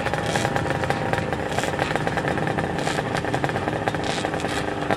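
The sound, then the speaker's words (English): Racing motorcycles fire up and run on a circuit, giving a continuous, rough, mid-pitched engine clatter with rapid pulsing at a fairly steady level and no clear voices. “You can hear the bikes firing up.”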